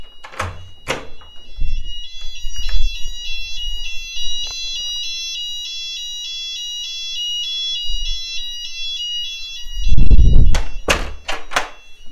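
Fire alarm ringing in a building corridor, heard through an opened door: a steady, high-pitched electronic tone that alternates between pitches and repeats throughout, with dull door thuds at the start and near the end.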